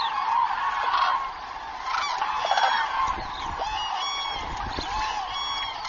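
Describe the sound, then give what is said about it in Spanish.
Flock of cranes taking flight at dawn, a continuous chorus of many overlapping honking calls, steady and fairly loud throughout with no single call standing out. “Las grullas son madrugadoras. Las primeras aves parten antes del amanecer y dan la señal para que otras las sigan.”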